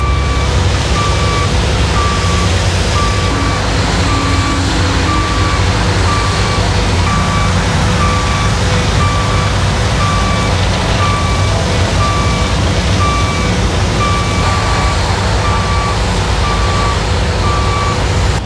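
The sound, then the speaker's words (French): Trucks reverse with a steady run of many high, evenly spaced beeps during construction work on a 1 km long, 4 m high wall near the migrant camp in Calais. A constant low engine rumble runs underneath throughout. “c'est le bruit des travaux de construction du mur qu'on a commencé à bâtir aujourd'hui aux abords de la jungle de Calais.”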